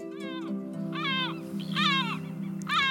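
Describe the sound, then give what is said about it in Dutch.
Great black-backed gulls screech around their two chicks on the coast, flying in to feed them. Four loud, drawn-out, wavering cries come in turn over a steady low hum. “En af en toe vliegen de ouders luid krijzend om de twee mantelbaby's heen om ze te voeren. Best een kabaal”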